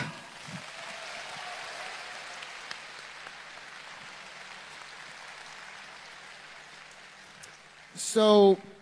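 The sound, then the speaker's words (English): Audience applause at a Video Games Live concert at BlizzCon 2015: a soft, steady wash of dense clapping continues for several seconds, then a voice briefly speaks over the end. “再来一次热烈的掌声”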